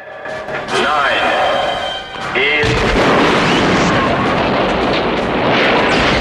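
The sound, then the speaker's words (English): Heavy gunfire in a James Bond action scene on a platform: warbling electronic tones come first, then a loud, booming, sustained blast of fire with strong recoil that stays dense until the end. “Tiffany fires the gun and the recoil sends her flying off the platform.”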